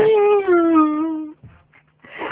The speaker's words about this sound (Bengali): বাচ্চা ছেলে কান্না করে এটা কে?